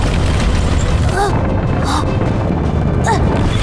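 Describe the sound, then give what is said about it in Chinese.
Ground cracking open in an earthquake, with a tank sliding down: a continuous loud, deep rumble, with brief vocal sounds over it. “舒克，地面裂开了，坦克在往下滑。”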